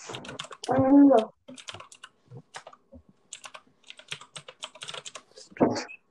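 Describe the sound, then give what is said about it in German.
Typing on a computer keyboard: many quick, sharp key clicks in irregular bursts and short pauses, steady and moderately loud throughout. “Was sind das für Tippgeräusche? Ich glaube, Computer.”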